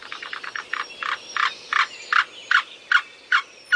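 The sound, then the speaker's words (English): A black-billed cuckoo calls in a series of more than a dozen hollow, clucking notes. They open in a quick, tight run, then space out into a slower, steady rhythm of louder single notes. The bird is heard alone. “Here's the yellow-billed cuckoo. And here's the black-billed cuckoo.”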